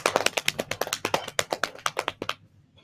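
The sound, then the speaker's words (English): A drumroll is tapped out by hand on a surface: a quick, steady run of many crisp taps, fairly loud and alone, ending abruptly. “And the judge is, drumroll please”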